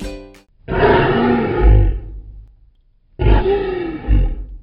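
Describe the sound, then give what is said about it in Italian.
A lion roars twice, each a loud, deep, drawn-out roar with a guttural rumble that swells and then fades, separated by a short silence. “si è svegliato il leone. Aiuto, scappiamo!”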